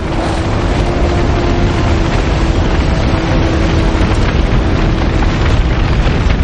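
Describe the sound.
A warehouse engulfed in flames gives off a loud, dense, continuous roar that holds steady without breaks or distinct crackles.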